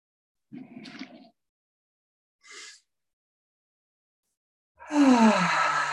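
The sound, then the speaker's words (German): Slow deep breathing: breaths drawn in through the nose and let out through the mouth. There are a couple of soft airy breaths, then a loud, long exhale that becomes a voiced sigh falling in pitch. “Nimm ein paar tiefe Atemzüge durch die Nase ein und durch den Mund aus.”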